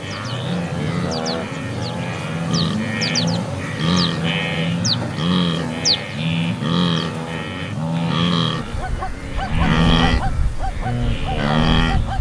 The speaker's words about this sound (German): Das etwas panische Bellen zwischendurch, das sind die Zebras. Und das tiefere, entspanntere Grunzen, das sind die Gnus.